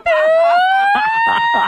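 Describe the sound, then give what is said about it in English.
A person imitates an ambulance siren with their voice: one sustained, raspy wailing tone that rises slowly in pitch and stays loud throughout. “has your siren ever broken and you've had to have your passenger hang out the window and go,”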